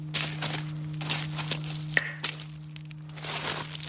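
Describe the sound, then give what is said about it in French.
Footsteps crunching on stones while climbing: several uneven steps with gritty scrapes and a few sharper cracks, fairly faint, over a steady low hum. “J'aime bien le bruit que font nos pas sur les pierres.”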